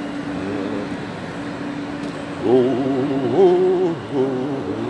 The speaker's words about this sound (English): On a locomotive, locomotive.